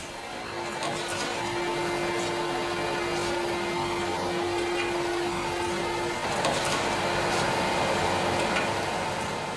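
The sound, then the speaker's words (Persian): A vacuum cleaner runs at home, giving a steady, droning whir with a constant motor hum that holds for several seconds. “مژده در را می‌بندد و شروع به کشیدن جاروبرقی می‌کند.”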